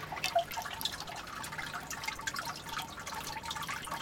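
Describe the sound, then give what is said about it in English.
A weakly flowing fountain gives a faint, thin trickle of water with small, steady drips and splashes throughout, while a voice briefly speaks over it. “And here is the sound of the mega fountain.”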